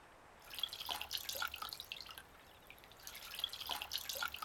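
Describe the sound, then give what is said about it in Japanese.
Feet dipping into a warm foot bath make soft water sounds. Two faint bursts of sloshing and dripping are separated by a quieter pause, with no voices. “ちょぽーんって足を入れてくださいませ。ちょぽーん。お湯加減はちょうどいいですの？”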